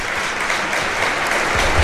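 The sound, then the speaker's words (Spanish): Football fans in red and white applauding a substituted player as he leaves the pitch, a dense, steady patter of many clapping hands that swells slightly toward the end. “En el cambio se va otro grande, otro que lo ha hecho bastante bien esta temporada, que es José Arnaiz. También el público lo reconoce. Rompen a aplaudir los aficionados rojiblancos.”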